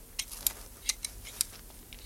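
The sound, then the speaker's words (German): Shears snipping a yew hedge in a garden: several faint, crisp clicking snips at an uneven pace, with no talk. “Das ist schön, wie du die Taxushecke da schneidest”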